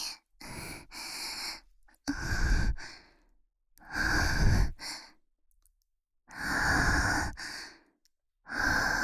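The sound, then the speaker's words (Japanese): Heavy, rough breathing: a series of loud, breathy inhales and exhales separated by short silent pauses, some drawn out and sighing, with no speech. “やらしい音、息まですっごい荒い。”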